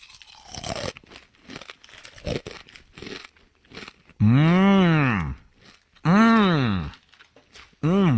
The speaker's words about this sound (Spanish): Es una bolsa de taquis. Fuego. ¡Oh, qué rico!